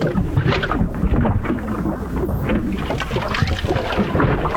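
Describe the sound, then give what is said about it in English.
Gurgling from a clogged drain, a steady, loud churn of bubbling, rushing water that runs without a break and carries no voices. “Uh-oh, is that another clogged drain?”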